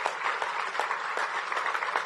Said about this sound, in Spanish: a la Fuerza Naranja del Invías, un aplauso para nuestros trabajadores.